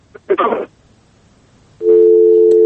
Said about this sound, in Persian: خب با تاسف که تلفن دوست ما قطع شد و شیرشان ناتمام ماند